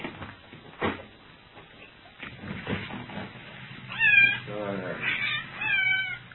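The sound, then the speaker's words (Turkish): A cat meowing as it wanders about someone's feet: after some quiet shuffling, a few high, wavering meows come in close succession near the end. “Kediye. Gene ayaklarımın altında dolaşıyor.”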